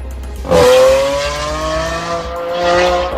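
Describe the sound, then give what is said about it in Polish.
A motorcycle engine revs on a city street in Warsaw, a loud droning engine tone that holds steady and climbs gradually in pitch, with a second surge of revving near the end. “Mieszkańcy Warszawy mają dość hałasu samochodów jednośladów.”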